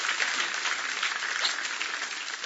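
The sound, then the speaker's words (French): A church audience applauds during a sermon, a dense, steady wash of clapping that holds an even loudness from start to finish with no pause. “on peut acclamer Jésus même si ce n'est pas facile.”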